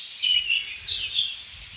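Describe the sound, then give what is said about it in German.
Blackbird alarm calls: a few short, high, thin notes over a quiet, low rumble, faint and spaced unevenly across the brief stretch. “Warnrufe aus der gleichen Stelle im Hotspot, da hat die Amsel gehört”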